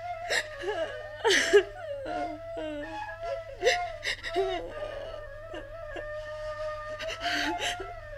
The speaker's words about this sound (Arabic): انت بتبكي؟